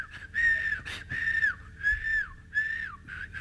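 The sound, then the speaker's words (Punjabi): A man whistles around the house after just learning how, producing a few short whistled phrases that each hold a steady tone and then dip at the end, separated by brief pauses. “ਕਹਿੰਦਾ ਕਹਿੰਦਾ ਆ ਗਈ, ਬੜਾ ਖੁਸ਼, ਲਓ ਜੀ ਘਰ ਸੀਟੀਆਂ ਮਾਰਦਾ ਜਾਵੇ।”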